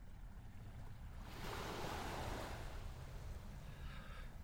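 Ocean waves wash in a soft, continuous hiss, faint overall, with one fuller surge of surf swelling through the middle before easing back.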